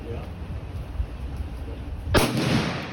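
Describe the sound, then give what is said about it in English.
A single hunting rifle shot fired by a hunter with impaired mobility cracks out sharply after a low, steady outdoor background, its loud blast lingering in a broad rumbling tail to the end. “this piece does include the sound of a rifle firing”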